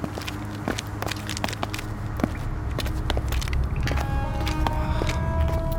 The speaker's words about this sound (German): Ja, jetzt müssen wir da runter, die Treppe.